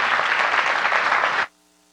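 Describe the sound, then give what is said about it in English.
Dense audience applause greets a speaker coming on stage, an even crackle of many hands that stops abruptly after about a second and a half. “please give a very warm Calvary welcome for Todd Wilson, the family man.”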